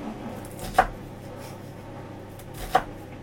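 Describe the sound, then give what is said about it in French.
A knife chopping an onion, with two crisp, isolated cuts about two seconds apart over a faint, steady background. “C'est des oignons coupés.”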